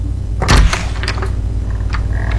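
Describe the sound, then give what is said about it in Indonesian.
A door that was left unlocked is pushed open, making one dull thump near the start, followed by faint, scattered handling noises. “Iya sayang, buka saja pintunya, tidak dikunci kok.”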